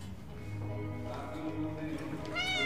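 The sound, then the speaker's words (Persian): A sick cat meows once, faint and brief near the end, with a rising, high-pitched cry after low voices talking quietly. “تو نمیبینی گربه مریضه؟”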